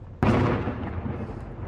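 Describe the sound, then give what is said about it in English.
Artillery fire in a war-damaged, largely abandoned community: a single loud, sharp boom that trails off into a long, low rumbling decay. “There was once a community here, but just as everything, silence is broken by the sound of artillery.”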